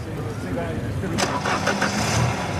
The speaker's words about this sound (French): Réglé au quart de poil, ce moteur devrait permettre à la Cosworth d'atteindre les 225 km/h. S'il veut bien démarrer, évidemment.